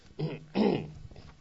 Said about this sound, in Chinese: 对不起，咳嗽好了，但是喉咙敏感，可能吃药太多，吃到喉咙很敏感，变成咳咳咳。